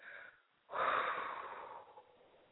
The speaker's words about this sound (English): Now let's all take a deep breath.